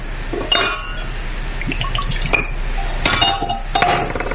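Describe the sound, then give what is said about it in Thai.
Soda pours into a glass and fizzes, with a few bright glassy clinks standing out over a steady hiss of liquid and bubbles. “เติมโซดาหน่อยโอ้โหซ่ามากนี”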